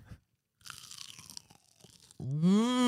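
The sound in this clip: Teeth bite into a crunchy beef empanada with chili sauce, giving a short burst of crisp crackling crunches, followed by a loud, rising voiced sound of appreciation.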